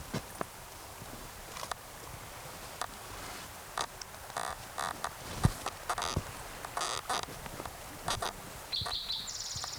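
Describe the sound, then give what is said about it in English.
Faint bird calls: short, sharp chirps and clicks recur irregularly over a quiet background, with a brief higher, tonal chirp near the end. “Same bird that gave cues 1 through 15.”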